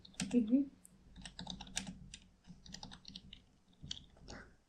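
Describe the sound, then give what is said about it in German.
Quiet typing on a computer keyboard, with soft, irregular key clicks tapping in uneven clusters. “Ich kann nicht sehen, was du tippst.”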